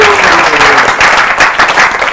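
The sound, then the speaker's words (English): Audience applause for a woman after she shares inspiring words at a devotional gathering. Loud, dense and steady clapping continues throughout with no pauses. “Let's give her a big round of applause.”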